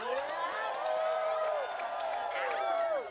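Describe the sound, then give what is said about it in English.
Loud audience cheering and celebrating during a participatory show, with shouting and whooping voices that bend and slide in pitch, sustained at full volume for about three seconds before trailing off at the end. “On the count of three. The audience participation. Great. Celebration and party as loud as you wish.”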